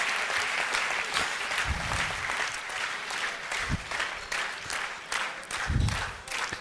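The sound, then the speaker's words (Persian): Audience applause during a slide presentation, a steady, fairly soft patter of many hands with a few low thumps scattered through, continuing without a break. “نه دیگه الان یه تشویقش کنین حالش خوب بشه.”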